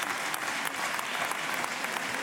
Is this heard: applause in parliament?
yes